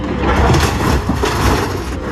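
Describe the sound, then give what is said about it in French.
Sheet metal crunches and scrapes as the huge claw of a construction machine tears apart shacks built on farmland. The grinding noise is loud and continuous. “L'immense pince de l'engin de chantier tire sur les morceaux de tôle, puis met à la benne les différents matériaux qui s'effondrent.”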